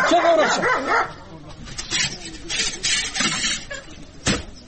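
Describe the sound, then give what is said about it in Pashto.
A dog barks as guests are led toward a house, giving several sharp barks and yips between and under people talking. “سپی دی نیسه چې اومو نه داړي. راځئ راځئ، نه مو داړي.”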